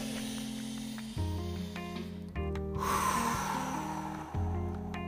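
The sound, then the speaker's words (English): A deep breath drawn in by a video game player, heard as a breathy hiss lasting over a second, set against steady electronic game tones that continue before and after it. “how you can tell is that you hear me take a deep breath in”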